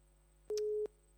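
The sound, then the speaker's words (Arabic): A telephone busy tone after a disconnected phone-in call: a steady, mid-pitched electronic beep in even on-off pulses, with one full beep followed by the start of the next. “فصلت المكالمة تمام.”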